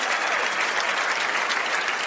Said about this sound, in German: Da sitzen einfach mal wirklich 2000 Leute und meine Gäste. Und das ist schon mal euer Applaus.